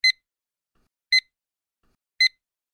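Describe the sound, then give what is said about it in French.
An electronic exam signal marks the end of a listening exam with three short, identical high-pitched beeps, evenly spaced about a second apart, with silence between them. “La fin de l'examen sera indiquée par le signal sonore suivant.”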